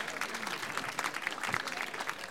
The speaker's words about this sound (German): Mal kleinen Applaus und Gratulation zu diesem wunderbaren Amt.